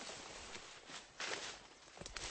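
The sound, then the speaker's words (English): Footsteps of someone walking back to a campsite, a few soft, irregular treads over a steady hiss of background noise, with slightly firmer steps in the second half. “Now, I'm going to walk back. I'm going to bring you back here”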